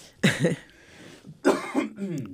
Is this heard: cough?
yes